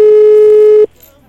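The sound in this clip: Telephone ringing on an outgoing call: a single loud, steady buzzing ring tone lasts under a second and then cuts off abruptly, leaving near silence.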